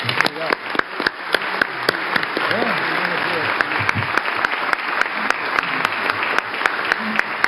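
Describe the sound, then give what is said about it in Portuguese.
At a public event, an audience gives a round of applause to honour a doctor. Sharp individual claps stand out from a dense, sustained clatter, and voices can be heard talking over the clapping. “Então eu quero que todos aqui agora, uma salva de palmas para o doutor Nico.”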